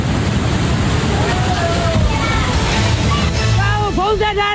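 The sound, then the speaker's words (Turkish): Flood water rushing through lower floors during flooding in China: a loud, continuous roar of churning, sloshing water with no breaks, dense and turbulent throughout. “Sel her şeyi önüne kattı. Alt katlar su baskınları yüzünden kabusu yaşadı.”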